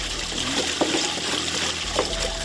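Water trickles steadily through a drip irrigation line watering 460 saplings in the village of Küldö, a continuous soft gurgle and splatter with faint drips rising out of it.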